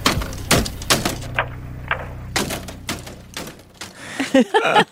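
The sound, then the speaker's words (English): Repeated banging of a circa-2008 payphone slammed into its booth. Many loud, sharp, clattering metallic impacts land in an irregular rhythm, with no talk over them. “That last sound you hear is a payphone circa 2008 being slammed repeatedly into the booth.”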